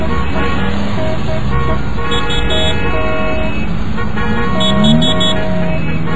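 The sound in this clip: Commuter traffic with honking car horns: several horns toot and blare over and under one another above a steady, dense rumble of engines.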